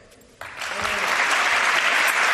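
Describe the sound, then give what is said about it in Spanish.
Applause for Karim Benzema's farewell from his own people at a small, private event. A quiet moment gives way to clapping that breaks out suddenly and swells into a full, steady ovation. “Karim Benzema, que se despedía con este aplauso de los suyos en un acto restringido, privado, pequeño”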